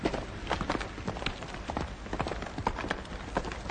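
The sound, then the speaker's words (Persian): A horse's hooves clop over a rocky mountain path with a rider on horseback. Many quick, irregular hoof strikes click and knock at a steady walking pace. “عبدالله به مسیر کوهستانی رسیده، سوار بر اسب در حال گذشتن است. صدای جوق در میان صخره ها پیچیده.”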